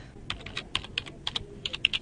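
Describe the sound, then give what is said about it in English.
Quick typing on a computer keyboard: many crisp keystrokes in a fast, uneven rhythm, clear and alone without voices. “But now I've just typed in YouTube”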